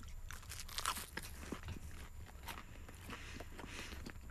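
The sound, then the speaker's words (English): Someone bites into and chews a toastie, producing many soft, crisp crunches in an uneven rhythm, faint and alone without talk. “Let's have a little taste of this toastie.”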